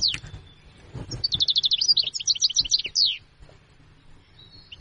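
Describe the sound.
A recorded bird call plays alone: a short high downward note, then a fast run of many bright, high chirps over about two seconds, stopping abruptly above faint low background noise.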